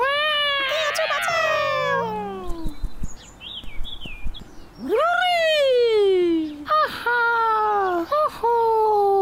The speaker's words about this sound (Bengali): তারপর এই বিড়ালের মুসিবত